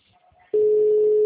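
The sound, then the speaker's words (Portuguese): An outgoing phone call's ringback tone: one steady, mid-pitched tone starts about half a second in and holds unbroken and loud to the end, after a short stretch of faint low noise. “Tô ligando, tá chamando aqui também.”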